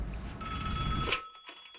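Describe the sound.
A telephone bell rings: a bright, rapidly trilling metallic ring that runs for about a second, then stops abruptly, leaving near silence with a few faint clicks.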